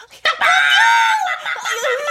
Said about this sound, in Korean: 스킬러, 가서 암탉 세 마리를 끌고 와. 예, 이 암탉들 일로 와.